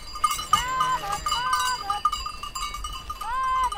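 Sheep grazing behind cows on a Swiss Alpine pasture bleat a few times with wavering, nasal calls, over a constant light tinkling of cowbells.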